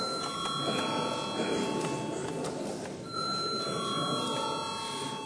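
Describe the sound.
An electric bell rings in a parliament chamber to call members to a vote. It gives a sustained, steady ring that dips briefly around the midpoint and then resumes over a constant background hum.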